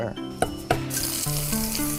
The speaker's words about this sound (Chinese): 蒜片的香味和高温的烹炒，不但可以去除羊河中的苦涩，还能激发出羊河的独特清香。